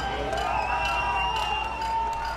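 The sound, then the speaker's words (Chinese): A crowd cheers at the opening of the Cuban embassy in Washington as the flag is raised, a faint, steady wash of many voices with scattered brighter shouts over a low rumble. “在欢呼声和口号声中，外交官、祝福者和示威者都在观看古巴国旗在新成立的大使馆外面升起。”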